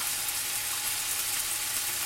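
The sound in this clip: Lamb sears in a hot pan with rosemary and garlic, giving a steady, bright sizzle and hiss with no talk. The level stays even throughout.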